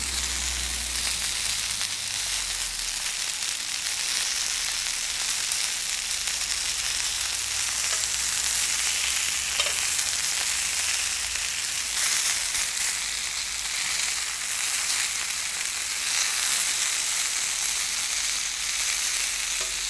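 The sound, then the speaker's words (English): Pork and meat sausages fry on an outdoor griddle with a steady, dense sizzle and crackle of fat over a low rumble, constant and unbroken throughout. “it's the sounds of sausages being fried in the open in a griddle. So here's pork and meat sausages.”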